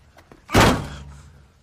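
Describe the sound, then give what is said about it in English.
A hand thumps a truck: one heavy, dull thud that rings out and fades slowly, with no talk. “thumps his truck”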